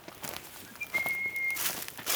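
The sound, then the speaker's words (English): A person whistles to call cats. A single short, steady, high-pitched whistle note, fairly faint, over quiet background noise. “I have to keep whistling because I have to keep their attention.”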